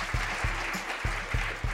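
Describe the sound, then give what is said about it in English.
An audience applauds with dense, steady clapping that holds at an even level throughout, with no voices on top. “122 women. You can applaud that.”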